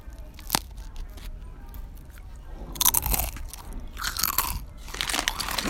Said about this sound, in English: You have to make cool sounds. With a bag of chips.